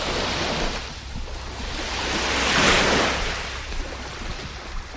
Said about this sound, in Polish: To był szum morza. Mam nadzieję, że to był właściwy szum Bałtyku na wybrzeżu gdzieś tam w okolicach Gdyni.